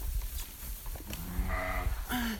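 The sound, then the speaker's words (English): Bleating from newborn twin lambs on a farm: a couple of short, tonal bleats sound over a background of low rustling and handling noise. “Ah, little twin lammies. Oh, has. Gosh, they're big lambs, aren't they?”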